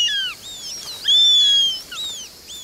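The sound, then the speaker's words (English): Eurasian sparrowhawk calls in a birdwatching video game set on a Mediterranean island: several high, thin, whistled calls, some slurring downward in pitch, sound with no talk. “As you traverse the animated ecosystem, listen for the calls of over 50 birds, like the Eurasian sparrowhawk,”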